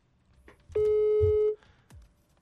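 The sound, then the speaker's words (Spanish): Outgoing telephone call ringing: a single steady electronic ring tone lasting under a second, loud over a faint, low background murmur. “Vamos a ver. ahí está sonando. Conste que no le dijimos que íbamos a marcar.”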